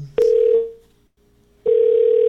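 A telephone busy signal after a number is dialed: a click, then two steady mid-pitched tone bursts separated by a silent gap.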